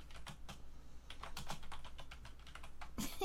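Typing on a computer keyboard: a rapid, uneven run of many crisp key clicks with no talking.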